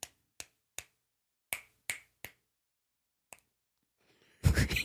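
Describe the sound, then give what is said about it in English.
Seven crisp finger snaps, each made by a finger striking the palm. Six come at irregular intervals in the first two and a half seconds, a seventh follows after a pause, and a short louder noisy burst closes the sequence. “It's not your finger. It's your hitting. It's the palm. Yeah. Your finger hits your palm, which makes a noise. It's not the finger.”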